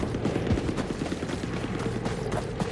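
Machine-gun fire at a ferry crossing during a battle, heard as a rapid, continuous rattle of shots at low level within dense, noisy combat sound, with no voices.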